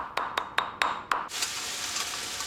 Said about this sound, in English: Chili and ginger are sliced and chopped on a wooden board. The shopkeeper mashes up a paste in a mortar and pestle.